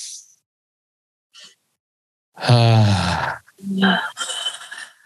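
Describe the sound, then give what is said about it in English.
A deep breath is pushed out through the mouth with a voiced, groaning tone as a stress-release exercise. A faint breath comes first, then a loud sustained groan and a few shorter voiced sounds. No words are spoken. “Take a deep breath in through your nose and breathe out through your mouth while making a sound, releasing all stress.”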